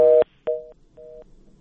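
Three short, evenly spaced electronic telephone beeps sound as a call connects on air, each a steady mid-pitched tone of equal length, with a click at the end of the first beep and a quiet line hiss between tones.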